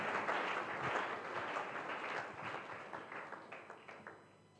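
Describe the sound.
Faint clapping from an audience during a sermon, honoring a teacher. Steady applause thins into a few separate claps as it fades out.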